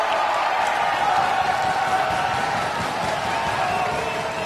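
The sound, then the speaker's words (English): Wrestling fans cheer and applaud in response to a ring challenge for the NWA World Heavyweight Championship at the Crockett Cup, a loud, steady roar of crowd noise and clapping that holds throughout. “I guess I got a great reaction, not just from the audience, but from Nick as well.”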